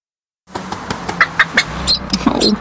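Animal calls in a roadside litter advert: a short run of bird- and fowl-like calls, several sharp chirps and squawks in a loose rhythm, growing busier toward the end, with no voices.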